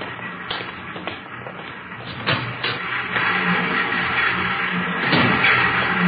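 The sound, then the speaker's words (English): Three Ludlow typecasting machines run in a printing plant, giving a steady mechanical hum and clatter with occasional sharper clicks, the noise growing slightly louder toward the end. “On your left there, those are three of our new Ludlow machines. Excellent mechanisms, needless to say.”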